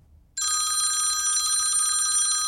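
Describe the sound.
Telephone bell ringing for an incoming call: a loud, continuous, metallic trill that starts abruptly after a short quiet moment and holds steady to the end.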